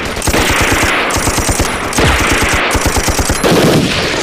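Heavy machine gun fire from a Japanese enemy gun in wartime combat: many rapid, evenly spaced shots in loud, near-continuous bursts with only brief breaks, and no voices.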